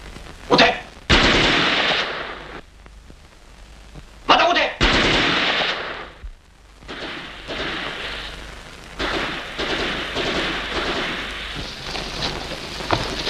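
Gunfire in a wartime drama as troops search for hiding people: a few loud, sharp bursts mixed with long stretches of noisy, crackling clatter that rise and fall in intensity.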